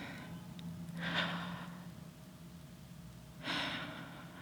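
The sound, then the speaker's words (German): Deep breathing through the mouth during a guided meditation: two slow, airy breaths, each swelling and then fading, with quiet between them. “Atme durch den Mund und atme bewusst tiefer als sonst.”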